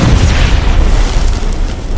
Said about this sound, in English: The next moment, the script says, the grenade detonates.